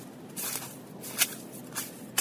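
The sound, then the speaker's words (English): Footsteps on a snowy, slushy running track, heard as a few soft, crunching, slushy steps in an uneven rhythm, faint and alone against a quiet background. “This track is really snowy and slushy. I don't know if you can hear it.”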